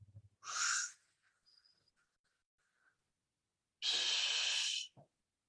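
Exaggerated deep breaths into the belly, demonstrated by a person: two loud, long, airy breaths separated by a few seconds of near quiet with faint small sounds.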